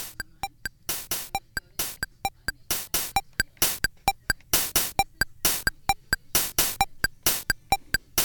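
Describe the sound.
A classic Casio electronic keyboard plays a drum beat: a steady, looping pattern of crisp electronic clicks and noisy snare-like hits that repeats evenly throughout with nothing else heard.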